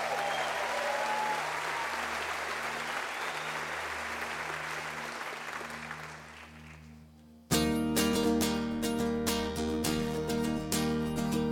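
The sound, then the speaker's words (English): Audience applause and cheering welcome a performer to the Twin Lakes stage, a dense, steady wash of clapping that holds for about seven seconds before live music abruptly starts up, loud and rhythmic. “And now would you please put your hands together as we welcome to the Twin Lakes stage”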